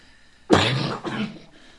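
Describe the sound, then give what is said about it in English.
Harsh, chesty coughing from a person with bronchitis: two loud, rough coughs in quick succession, the first a little longer and stronger than the second, with no talk around them. “Yeah, I've been kind of fighting a bronchitis the last week or so. So it's working its way out. Instead of coughing every 5 minutes, now it's like, you know, hourly.”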